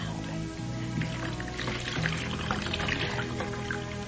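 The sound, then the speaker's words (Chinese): Water pours steadily to wet a towel, a continuous splashing trickle that runs for about four seconds without any talk. “水来了，水来了，毛巾先弄湿了再扭干。”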